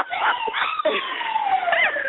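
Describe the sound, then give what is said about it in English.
An ambulance siren wails in steady, high tones that glide slowly downward, continuous and fairly loud across the whole clip. “That's the ambulance coming for little Coco and Dusty.”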